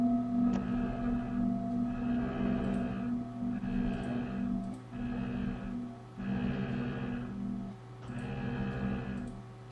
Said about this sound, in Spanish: supongamos que tenemos unos cuencos tibetanos. ¿Ya? Mira, escucha acá, por ejemplo, estos son puros cuencos.